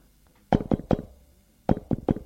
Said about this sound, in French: On a frappé à la porte.